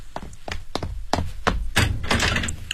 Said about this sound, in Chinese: 我去开门